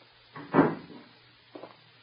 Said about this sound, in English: I just thought I'd examine the lock on the door here.